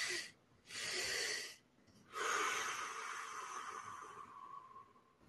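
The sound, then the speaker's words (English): Human breathing in a deliberate pattern: two sharp inhales, the second very brief, then one long, steady exhale that slowly fades over several seconds, with no talk. “it's two inhales followed by a long extended exhale. So, like this.”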